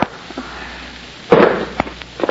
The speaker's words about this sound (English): see what the sound of those shots brought you?